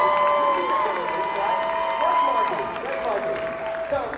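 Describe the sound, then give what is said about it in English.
Audience clapping and cheering for a marketing mentor at a live talk, with whoops and shouted voices over dense applause that begins strong and slowly eases off. “Let's give a round of applause for Justin Owens.”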